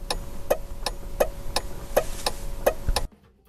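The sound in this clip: A voice imitates a car turn signal ticking, giving many evenly spaced, sharp clicks in a steady rhythm over a slight background hiss before it cuts off abruptly.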